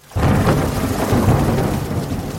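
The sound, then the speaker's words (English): Thunder rumbles with heavy pouring rain in a Florida storm over a tourist resort area, a dense, steady roar starting abruptly after a brief silence and holding loud throughout. “Storms are not unusual in Florida, but an ominous crash of thunder and a pouring rain sent tourists scrambling for cover in nearby shops and restaurants around this well-manicured portion of Disney.”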